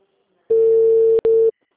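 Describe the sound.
Loud, steady telephone tone after a dropped call, a single sustained pitch lasting about a second with a brief break just before it ends.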